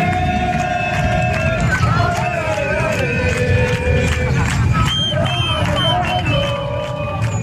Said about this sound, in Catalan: És la rua del Barça, que ahir passava pels carrers de la ciutat